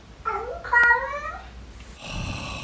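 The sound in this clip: A cat meows twice in quick succession, loud drawn-out harmonic cries with a wavering pitch, followed by a steadier noisy stretch.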